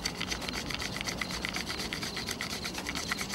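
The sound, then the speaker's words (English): A stick is rubbed vigorously between the hands to start a fire by friction over dry grass: rapid, rhythmic scratchy rubbing strokes repeat many times in a steady, raspy pattern, moderately quiet, with no voices. “the captain rubs a stick vigorously between his hands, causing the end to heat with friction and causing the dry grass piled beneath it to catch fire”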